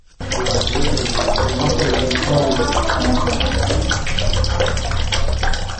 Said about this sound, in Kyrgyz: Суу ваннадан мынтип аз аздан гана чыгып атканына карабай